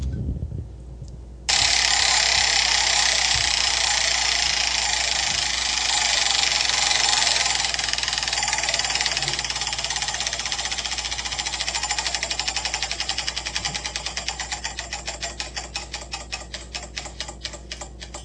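A prize wheel spins with rapid clicking that sets in abruptly after a second and a half, runs as a fast, even rattle, then gradually slows so the individual ticks spread apart toward the end.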